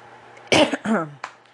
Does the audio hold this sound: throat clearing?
yes

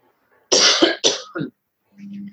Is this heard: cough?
yes

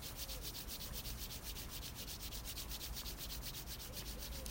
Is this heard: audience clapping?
no

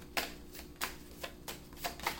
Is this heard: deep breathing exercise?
no

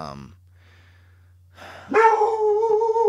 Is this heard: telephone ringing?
no

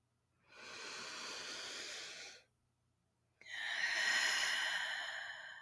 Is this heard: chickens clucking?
no

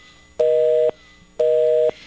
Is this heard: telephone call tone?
yes

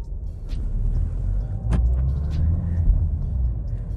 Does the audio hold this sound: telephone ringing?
no

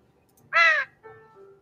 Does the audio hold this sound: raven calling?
yes

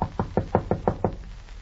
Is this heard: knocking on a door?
yes

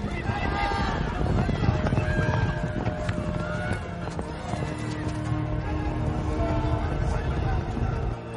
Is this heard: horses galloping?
yes

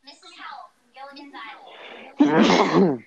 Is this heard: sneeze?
yes

